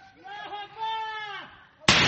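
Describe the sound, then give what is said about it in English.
A single sharp gunshot from Afghan forces in the capital of Badghis province, a sudden loud crack near the end that follows a raised, wavering voice. “Afghan forces firing shots in the capital of Badghis province after the Taliban stormed the city”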